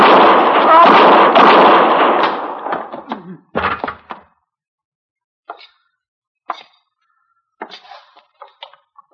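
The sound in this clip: Gunshots ring out in a radio western shootout. A loud, dense burst of shots lasts about two seconds, then a sharper crack, then scattered fainter short sounds.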